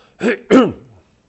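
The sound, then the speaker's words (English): A man clears his throat with two loud, rasping, guttural bursts in quick succession, trailing off into a soft low grunt. “Try and get past this clearing my throat here.”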